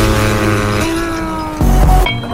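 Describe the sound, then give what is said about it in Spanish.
Car engines rev loudly and accelerate, with a sustained harmonic drone that surges louder briefly near the end. “Arranquen los motores, ha llegado la hora de pisar el acelerador.”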